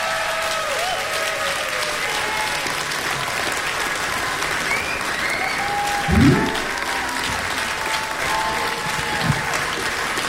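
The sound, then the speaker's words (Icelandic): Audience applause for a female singer at a blues festival concert: dense, steady clapping throughout, with a few brief voices and shouts rising over it. “Ragnheiður Gröndal, gefi henni gott klapp”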